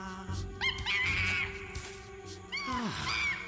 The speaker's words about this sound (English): It was only a monkey.